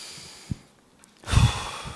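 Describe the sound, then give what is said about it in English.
A crowd draws a deep breath together during an Advent season gathering: a soft, airy rush swells in the second half and stays fairly loud to the end, after a brief faint tap and a quiet pause. “You guys want to take a deep breath?”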